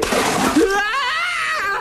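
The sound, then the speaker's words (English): Water thrown at a chimney splashes in a short, sharp wet burst, and a voice immediately cries out in a long, wavering shout. “Right, I've got the water. Well, try and get it inside the chimney this time. Right, here goes then.”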